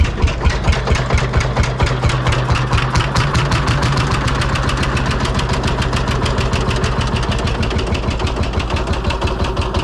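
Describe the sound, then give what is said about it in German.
A Lanz Bulldog single-cylinder tractor engine chugs at a steady pace, a long, even train of deep, thumping firing beats that stays loud and unbroken throughout. “das ist doch ein Trecker. Ich glaube, das ist ein Lanz Bulldog. Das ist ein Einzylinder. Das ist dieses tuckernde Geräusch.”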